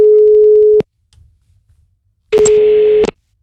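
Outgoing telephone ringback tone heard while placing a call: a steady, buzzing tone is cut off early on, then after a quiet gap a second long, level tone sounds and stops.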